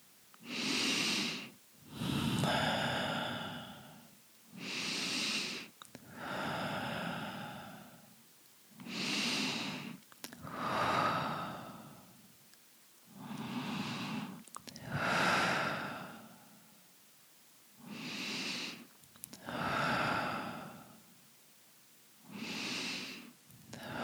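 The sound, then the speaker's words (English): Deep cleansing breaths during a guided meditation, drawn in through the nose and let out through the mouth. The breaths come as a slow, steady series of many soft, airy swells with brief quiet gaps between them, and no talking. “Let's begin to take some deep breaths, 7, in through your nose and out through your mouth, cleansing breaths.”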